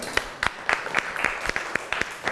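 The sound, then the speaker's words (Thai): Applause from a classroom of students clapping for a classmate: a steady run of evenly spaced, fairly faint claps, with no voices over them. “โอเคปรบมือให้เพื่อนหน่อยครับ”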